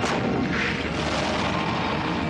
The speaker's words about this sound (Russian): Тщательно целясь, стреляет Борзых.